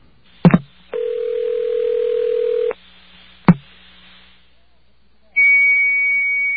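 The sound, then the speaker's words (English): Clicks on a payphone line on 8th Avenue are followed by a lower buzzy steady tone, then another click. A high, pure computer tone then sounds after dialing and holds steady to the end. “Well, listen to that. It's a computer tone.”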